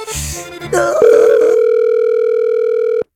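Telephone dial tone after a call is hung up: a steady, unbroken mid-pitched tone holds for about two seconds, then cuts off abruptly, following a short burst of mixed sound at the start.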